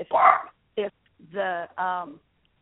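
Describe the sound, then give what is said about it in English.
Dogs barking at home, a few short bursts of sharp barks and whiny, yelping cries separated by brief silences, fairly loud and with no talk over them. “sorry, my dogs are barking”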